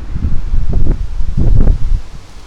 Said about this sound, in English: And the wind is coming up again.